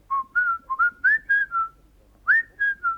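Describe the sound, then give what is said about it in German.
Whistling of a short tune: a run of clear, mid-pitched notes in quick succession, a brief pause, then three more notes, heard alone with no talk. “Legt ein Buch auf den Schreibtisch und sagt, wenn sie das Buch ansieht, hört sie einen Pfiff.”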